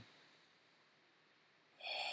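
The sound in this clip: One slow, deep breath taken to calm the mind: a long, soft, airy hiss that ends as a louder voiced sound begins.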